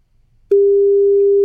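A telephone line rings while a radio listener is being called: after half a second of near silence, a single steady, loud, pure tone begins and holds unbroken.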